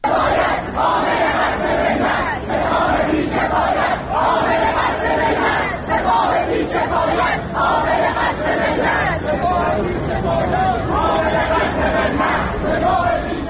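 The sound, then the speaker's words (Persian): Students chanting slogans at universities in Tehran, a loud crowd shouting together in repeated rhythmic bursts, each phrase separated by short dips, sustained throughout. “به بخشی از صدای شعارهای دانشجویان در دانشگاه‌های تهران گوش می‌کنیم.”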